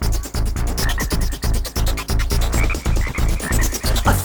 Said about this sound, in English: Just ribbit. A frog can hop to another lily pad and chill. Just ribbit.